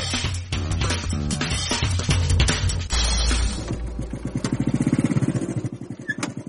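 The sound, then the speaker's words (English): A new motorbike out for a ride: clattering engine noise gives way to a loud, rapid throbbing of engine pulses that fades slightly toward the end. “Finn has decided to take us out for a ride on this new motorbike today. And he's very proud of it.”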